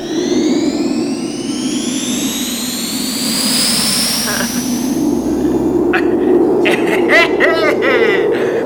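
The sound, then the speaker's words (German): A sustained airy whoosh of flying through a castle window, with bright tones gliding slowly upward over a steady low rush. Voices come in toward the end. “Wir fliegen durch das Burgfenster.”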